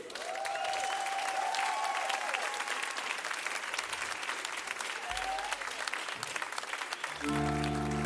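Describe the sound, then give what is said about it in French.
An audience at a concert gives a warm ovation to the evening's first guest, a local artist and songwriter. The dense, sustained clapping stays loud and even from start to finish. “Je vous demande une ovation pour Joe Gilly.”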